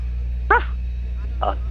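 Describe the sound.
A person imitates a dog barking with two short, throaty woofs, the first one louder, separated by a brief pause over a steady low hum.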